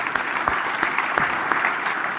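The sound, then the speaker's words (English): A church audience applauds people who were just baptized, a thick, continuous patter of many hands clapping at a steady, fairly loud level from start to finish. “Can we just give those guys another round of applause for”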